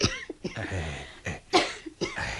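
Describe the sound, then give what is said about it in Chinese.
Several short, harsh coughs from someone with an itchy, phlegmy throat after eating sweet soup, coming in uneven bursts with brief breathy pauses between them. “喉咙痕起上嚟，咪咳两声咯。”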